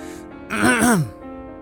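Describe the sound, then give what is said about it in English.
A man seated at a desk clears his throat: a single short, voiced rasp about half a second long, falling in pitch, over a faint, steady musical background. “Professor Daniels shifts in his seat and clears his throat.”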